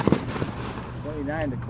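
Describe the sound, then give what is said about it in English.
Shotgun fire at the Pacific Rod and Gun Club range at Lake Merced: a few short, sharp bangs at the start, followed by a person talking. “We shoot trap, we shoot skeet, we shoot Olympic skeet.”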